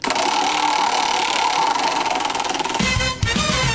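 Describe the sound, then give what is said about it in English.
A prize wheel spins with a loud, rapid ratcheting clatter of clicks that runs steadily, then breaks off abruptly just before the end. “So let's spin the wheel and see what we're playing and see who we hear from this week.”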